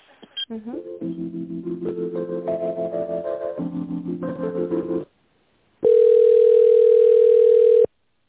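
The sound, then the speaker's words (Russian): A phone line during a call transfer to a car dealership: a short electronic melody of stepped tones, a brief gap, then one long, steady, loud ringing tone. “Давайте я вас переведу на УАЗ. Ага, спасибо. Ожидайте.”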